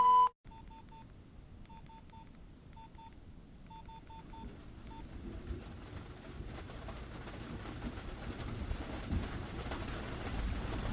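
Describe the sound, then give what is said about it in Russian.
A voicemail beep follows the unavailable-subscriber message: one short, loud tone at the very start, then a run of brief pulsed tones, and finally a steadily rising hiss. “Новый абонент недоступен. Вы можете оставить сообщение после сигнала.”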